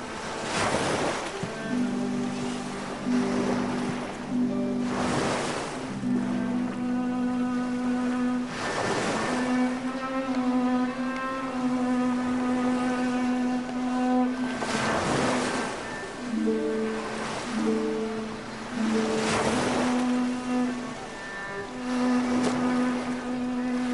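Waves on a lake during a fishing outing surge in repeatedly, each wash rising as a broad rushing swell and then falling back, over a sustained tonal drone that runs underneath the whole time.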